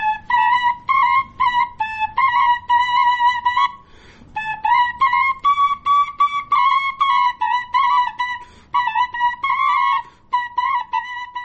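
A pair of Afghan shepelai flutes, played at once, carries a shrill, bright melody of short, quickly repeated notes in lively phrases, with one brief pause partway through. It plays loud and alone.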